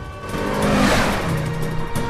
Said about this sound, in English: drives wildly, a worried look on her face. She weaves and veers among the traffic.